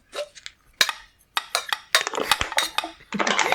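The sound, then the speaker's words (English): A metal cup is clattered in irregular bursts of bright metallic clinks, scrapes and rattles, some isolated and some in quick clusters, with short pauses between them. “I've got a sort of a metal cup, but I don't know if I can get much of a sound out of it.”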